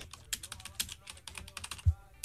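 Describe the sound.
Fingers type quickly on a computer keyboard, making many irregular, light clicking keystrokes at a fairly low level.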